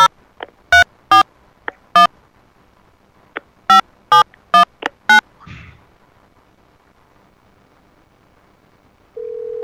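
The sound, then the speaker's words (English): A telephone is dialed for a call: a string of short, sharp tones in uneven clusters, some loud and some faint, then a quiet stretch before a steady tone begins near the end. “Maybe we'll give her a call and see if we can find out what happened to Judy.”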